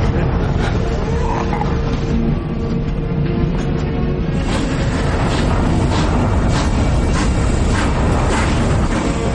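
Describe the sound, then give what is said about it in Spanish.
A train starts to move slowly along a wartime station platform, giving a loud, continuous low rumble with intermittent clanks and metallic knocks. “El tren empieza a avanzar lentamente ante el andén”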